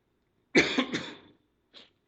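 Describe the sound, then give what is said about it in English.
Coughing from someone teaching a Bible passage: a loud burst of a few rapid hacks, then a short, quieter cough after a brief pause. “Excuse my coughing.”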